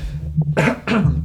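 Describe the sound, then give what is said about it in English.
Two short, harsh coughs from a person with seasonal allergies come in quick succession, loud and breathy, after a faint throat sound. “Again, excuse me for my coughing here.”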